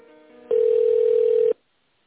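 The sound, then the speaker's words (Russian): A telephone tone sounds while a call is being transferred: a faint lower tone, then a single loud, steady beep lasting about a second, followed by silence. “Подождите секунду, я вас переключу.”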